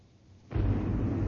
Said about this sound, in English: An explosion sends clouds of dust and rock into the air on the sheer face of a quarry.